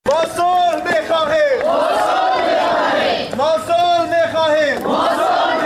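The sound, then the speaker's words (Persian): Demonstrators at a protest in Mazar-i-Sharif chant loudly in unison, a crowd shouting the same phrases again and again in a steady, rhythmic pattern. “گزارش مجیب حبیب زی از مزار شریف با صدای مظاهرهچیان آغاز می شود.”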